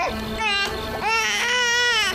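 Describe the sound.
An infant wails during a tense dramatic scene. Two long, high-pitched cries with wavering pitch come back to back, both loud and strained.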